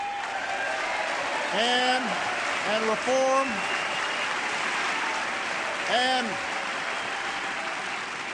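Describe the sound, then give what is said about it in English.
Hesitant applause from an audience during a political speech on defense spending, a soft, scattered wash of clapping running beneath a voice that speaks in short bursts. “You can hear the hesitant applause on some of those lines.”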